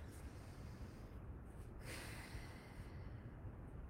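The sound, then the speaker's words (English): A slow, deep breath drawn during a guided meditation grounding exercise, soft and airy, faint and steady against a quiet hiss. “I'm just going to take a breath, and I just want you to take a breath with me.”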